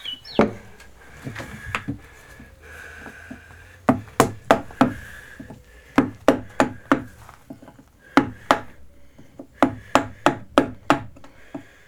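Knocking on larch, a resinous softwood, in a workshop: many sharp, dry raps in quick, irregular clusters, separated by short pauses and fairly loud against a quiet background.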